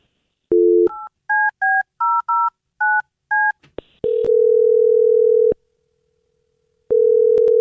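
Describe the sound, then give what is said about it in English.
A telephone number being dialed: a short tone, then seven crisp touch-tone key beeps in quick succession, followed by a long steady ringing tone that stops, pauses, and starts again. “All right, I'm going to dial him right now. Here we go.”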